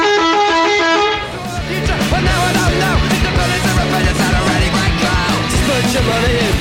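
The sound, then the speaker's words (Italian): Bus horn honking: a loud, sustained blast of about a second, then dense, busy noise with short, loud bursts. “Lo senti, clacson?”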